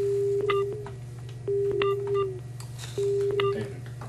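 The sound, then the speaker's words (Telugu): A dropped telephone call gives a disconnect tone: three evenly spaced, steady mid-pitched beeps, each with short higher blips, repeating over a faint low hum. “Phone line cut అయినట్టుంది.”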